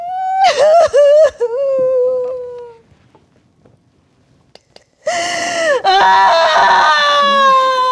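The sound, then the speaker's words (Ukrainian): A distressed cat cries loudly, shut inside its carrier: a burst of drawn-out, wavering wails, a pause of near-silence, then even louder, sustained crying. “Маруся втікає до переноски, зачиняється і починає плакати ще дужче.”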